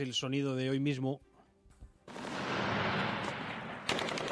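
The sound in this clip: Machine gun fire in the streets of Kharkov follows a short spoken line: a dense, loud, crackling rattle of gunfire runs on steadily, and a voice returns briefly near the end.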